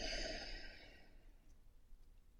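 A slow, deep breath during a guided breathing exercise: one long, airy rush of air that starts full and gradually fades, soft and unvoiced with no talking.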